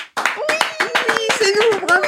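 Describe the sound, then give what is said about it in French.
A small group applauding in a studio gives a brisk burst of dozens of sharp hand claps in uneven rhythm, loud, while several people laugh and talk over it. “Est-ce qu'on doit applaudir? On s'applaudit, c'est pour l'ambiance.”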